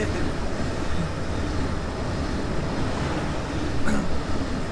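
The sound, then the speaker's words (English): A short train passes with a steady, broad rumble and rushing noise that holds throughout and swells slightly near the end, where a brief sharp sound cuts through. “Some of the trains are longer than others. Oh, that was a short one.”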